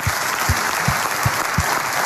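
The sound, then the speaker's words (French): An audience at a live morning show applauds a guest with dense, steady clapping throughout, with a few soft low thumps. “Applaudissements pour Christophe.”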